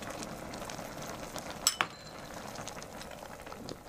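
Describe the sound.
Soup comes to a boil in a pot before meat and mushrooms go in, a faint, steady bubbling hiss with two quick metallic clinks of a utensil near the middle.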